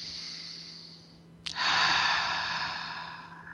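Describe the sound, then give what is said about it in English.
Deep, slow breaths from a person: two long, airy breaths, the second fuller and louder after a brief click, soft overall with no talking. “And let's take a few deep breaths. A couple of them.”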